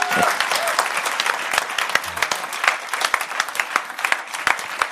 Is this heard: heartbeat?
no